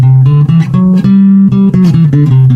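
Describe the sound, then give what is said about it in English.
A major scale is played as a musical demonstration, loud and alone, with distinct notes stepping upward and then coming back down in an even rhythm. “there's this thing called the major scale. You've probably heard of it before. It sounds like this.”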